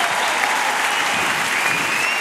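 A studio audience applauds in a steady, dense wash of clapping that stays loud and even throughout, with no voice standing out above it.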